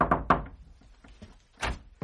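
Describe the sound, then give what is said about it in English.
Knocks on a door in a period drama: a few dull, solid thuds, a close pair at the start, then after a quiet pause a couple more, with no voices. “At the appointed time, the first knock came at Jamila's door.”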